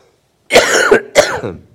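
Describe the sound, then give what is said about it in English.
A man coughs twice in quick succession, two loud, rough, throaty bursts with a slight rasp of throat clearing, the first longer and the second trailing off, with no talk around them. “I'm coughing demons out. That's what I'm doing.”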